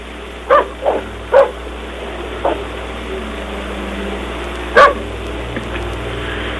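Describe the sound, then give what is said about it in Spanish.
Dogs barking: a few sharp, separate barks cluster in the first seconds, a fainter one follows, and a single louder bark comes later over a steady low background hum, with no talk. “Los ladridos de los perros ahora más cerca.”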